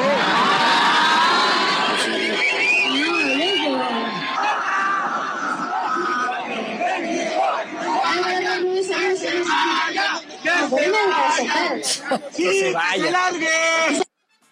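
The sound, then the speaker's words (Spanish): Concert crowd shouting and chanting against the singer after Mexico's elimination, loud overlapping voices with wavering chanted tones and sharper yells, continuing steadily until an abrupt stop near the end. “estuvo en un concierto cuando acababan de eliminar a México y creo que cometió un error porque la gente se le volteó durísimo, estaban muy felices.”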